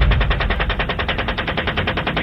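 Soldiers opening fire in a sustained burst of automatic gunfire: a rapid, even stream of many loud, sharp shots that runs without a break from start to finish.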